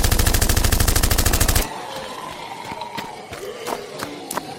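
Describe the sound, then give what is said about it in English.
Gunfire opens with a rapid, evenly spaced burst of automatic shots that stops abruptly, followed by a few scattered sharp reports that are quieter and irregular. “Just keep shooting.”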